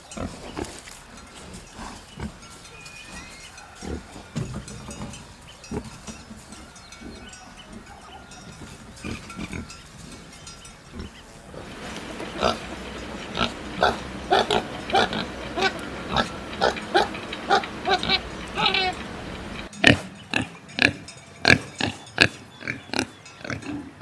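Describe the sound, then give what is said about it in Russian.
A pig grunts in a long series of short, rough grunts, sparse and muffled at first, then growing louder and more rapid with many closely spaced bursts in the second half. “Свинья. Свинья.”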